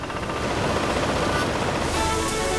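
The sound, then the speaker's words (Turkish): Dried raisins are carried along a water channel in a factory on their way to washing, making a dense, steady rushing and churning that stays constant and loud throughout. “Kuru üzümler buradan kelimenin tam anlamıyla bir meyve deresine akıyor ve yıkanmaya gidiyorlar.”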